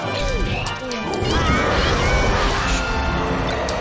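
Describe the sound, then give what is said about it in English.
A smash attack strikes an enemy in a video game, giving a loud crashing hit within a dense, continuous layer of game sound effects and music. “And then we're just gonna smash attack and off it goes.”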